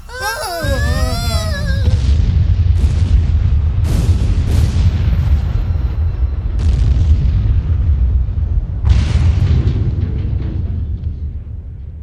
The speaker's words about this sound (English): Look at the sun. What's happening to it? I'm not sure. It almost looks like it's exploding.